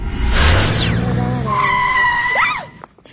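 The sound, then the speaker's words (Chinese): Tires squeal sharply as a driverless red car skids toward a man and nearly hits him. A loud, high, wavering screech holds steady, then bends up and down before cutting off, over a dense rumble of the car. “突然一辆红色的汽车向他开过来，差点撞上他。”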